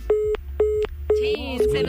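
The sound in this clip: Telephone disconnect tone after a dropped call: four evenly spaced mid-pitched beeps, each about a quarter second long, with a voice starting to talk over the last two.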